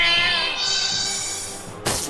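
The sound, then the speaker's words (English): A synthesized cat meow rings out from a monster's Meow move in a video game battle, one long, bright, drawn-out harmonic cry that ends with a short noisy burst. “Foe Mayanigo used Meow.”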